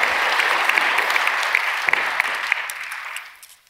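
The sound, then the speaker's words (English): Audience applause welcomes a pastor to the front at a church service. Thick, sustained clapping with a few sharp standout claps continues for about three seconds, then thins out and fades away. There is no talking. “So put your hands together and welcome our very own Pastor David Nunn.”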